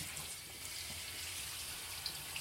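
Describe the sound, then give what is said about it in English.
Tap water runs at a sink while a face is rinsed. The flow makes a steady, even hiss with a couple of faint splashes. “I'm gonna rinse my face off.”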